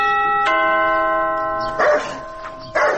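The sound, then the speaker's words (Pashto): A house doorbell is rung at the door, giving a steady, sustained electronic tone that holds and slowly fades. Two short, noisy bursts follow near the end. “ته ودرېږه، دا د دروازې زنګ ووهم.”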